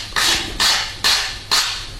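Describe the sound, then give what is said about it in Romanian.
Chalk crosses out writing on a board in four evenly spaced, raspy strokes, each a loud scratchy sweep that fades before the next. “Acum ia creta și pur și simplu taie tot ce a scris.”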